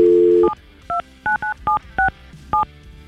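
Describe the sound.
A telephone dialled to ring a radio listener: a brief dial tone, then six sharp touch-tone beeps in an uneven rhythm, each with its own paired pitch.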